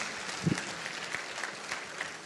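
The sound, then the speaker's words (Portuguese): A church audience in a Methodist cathedral applauds in a continuous, even wash of clapping hands that stays at a steady moderate level throughout, with no voices over it. “Você pode aplaudir Jesus?”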